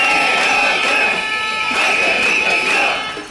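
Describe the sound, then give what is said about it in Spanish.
About 200 protesters chant outside the Balearic parliament, rallying on a strike day for a regional collective agreement covering nursery workers. The crowd is loud and continuous, with rhythmic shouted bursts recurring throughout. “Casi 200 personas se han concentrado frente a la Cámara Balear para reclamar un convenio colectivo autonómico para las trabajadoras de las escoletas de 0 a 3 años”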